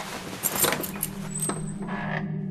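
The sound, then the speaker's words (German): Keys jingle in several quick metallic bursts. A sharp click of the lock follows, then a brief thin creak as a door is opened a crack, all fairly faint over a low steady hum. “Gut, nehmen Sie den Schlüssel. Danke. Seien Sie vorsichtig. Keine Sorge, ich werde die Tür zunächst nur einen Spalt öffnen.”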